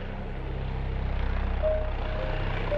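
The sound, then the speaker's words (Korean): Low, steady rotor rumble of an emergency helicopter called out for a diver rescue at sea, moderately loud with a faint pulsing beat and no voices. “응급헬기까지동원됐습니다”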